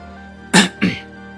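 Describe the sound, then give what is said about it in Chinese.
A man gives two short, light coughs, like quick throat clearing, in a costume-drama scene. The first cough is slightly stronger than the second, and quiet background tones sit beneath them. “他轻咳了两声，两颊泛起红晕”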